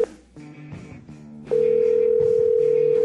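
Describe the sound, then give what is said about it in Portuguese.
A telephone dials a long-distance call to area code 22 in the interior of Rio de Janeiro: a few short, uneven tone beeps, then a loud, steady, unbroken tone that holds to the end. “vou ligar sim pro Garotinho, vamos lá, discando aqui. Né, é a ligação interurbana, DDD 22, interior do Rio de Janeiro.”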